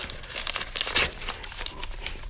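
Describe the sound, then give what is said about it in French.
A paper envelope is torn open with crinkling, rustling paper noises and a louder ripping burst near the middle, heard alone at moderate level. “Oh, une enveloppe! Encore une enveloppe! Oh, vite, ouvre!”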